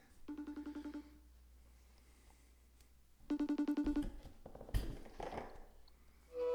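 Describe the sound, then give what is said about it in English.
An outgoing phone call rings: two bursts of rapid, pulsing electronic ring tone separated by a quiet pause, followed by a click and some rustling. “So let me dial up Jay real quick and let's get started.”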